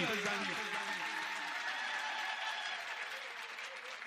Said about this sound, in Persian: دست همه بالا بیاد کف بزنیم